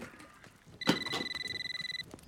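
A landline telephone rings in a kitchen with a fast trilling electronic ring lasting just over a second. A sharp thump comes at its start, and the ring is alone, with no voices.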